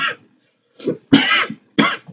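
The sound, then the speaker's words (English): Loud, harsh coughing in a few rough bursts with short gaps between them, the middle bursts strongest. No talking. “That's a loud cough, man.”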